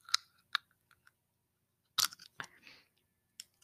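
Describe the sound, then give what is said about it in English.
Dental retainers are pulled off the teeth, giving several sharp, faint plastic clicks and small wet snaps. The clicks come singly or in short clusters, separated by quiet pauses, with no talking. “I have my retainers on, so let's take it off.”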